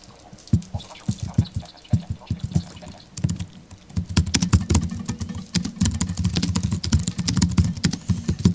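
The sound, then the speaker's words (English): Typing on a Mac computer keyboard, many quick clicking keystrokes in irregular bursts with short pauses, growing denser and more continuous in the second half. “he's typing on his Mac”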